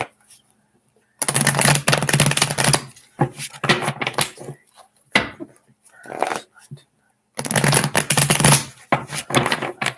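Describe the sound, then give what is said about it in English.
Tarot cards being shuffled in two brisk, crackling riffle bursts, with a person talking quietly in the stretch between them. “Three more shuffles.”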